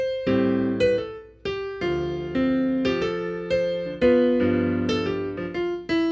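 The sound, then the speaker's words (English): Solo piano played with a little sustain pedal, a steady sequence of many struck chords and notes, each ringing briefly and decaying before the next, at moderate volume with no talk. “Yeah, I might use a little bit of pedal. At some point, so it might sound like this.”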